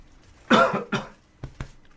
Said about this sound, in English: excuse me, a bit of biscuit in my throat